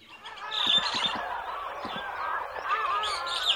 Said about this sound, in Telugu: ఏం జరుగుతుంది ఇక్కడ? ఆ కాకి అక్కడ ఏం చేస్తుంది?